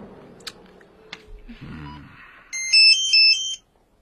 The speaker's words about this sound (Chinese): 你的手机